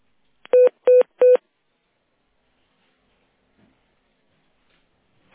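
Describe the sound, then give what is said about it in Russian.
Three short electronic keypad tones of a telephone number being dialed, evenly spaced and loud, then near silence with a faint click at the end. “Я так и буду ей звонить.”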